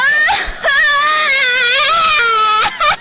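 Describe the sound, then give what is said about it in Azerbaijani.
Young girl crying loudly: a short sob, then a long high wavering wail, then another brief sob as she catches her breath. “Nə oldu? Nə oldu, ay qızım, niyə ağlayırsan?”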